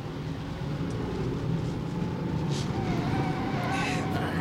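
A car driving along an empty, bumpy road at night makes a steady engine drone over a low rumble, holding fairly even throughout.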